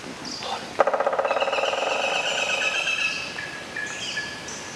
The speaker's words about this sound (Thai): เด็กๆคะมาตั้งใจฟังเสียงนกหัวขวานเจาะโพรงไม้กันดีกว่านะคะแล้วก็จดจำไว้เลยค่ะเข้าป่าเมื่อไหร่ถ้าหากว่าได้ยินเสียงนี้มองหานกหัวขวานได้เลยค่ะ